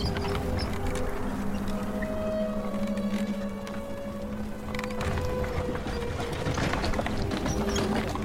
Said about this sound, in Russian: Повозка подъезжает к островку.